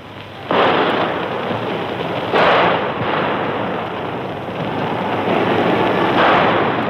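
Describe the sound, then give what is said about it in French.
Gunfire crackles during an attack at a church, a harsh, loud wash of dense crackling that surges in sudden bursts and holds almost without pause. “Les coups de feu crépitent toujours.”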